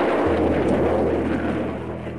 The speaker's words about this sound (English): Those of us in Britain who have listened to the roar that followed the explosion of a V-2 on arrival will certainly recognize it.